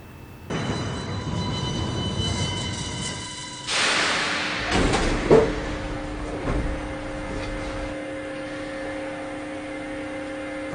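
A subway car rumbles and whines while stopping at a line-transfer station, a steady tonal motor hum with a surge of hissing noise midway, then a lingering even whine.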